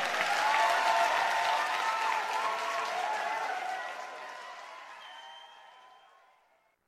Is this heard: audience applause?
yes